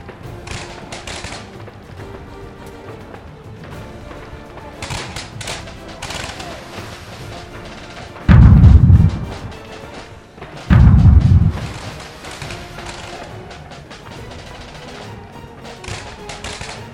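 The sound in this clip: Pirate ship cannons firing: two heavy, booming blasts a couple of seconds apart, each loud and deep, standing out over a continuous busy background of clatter and sound.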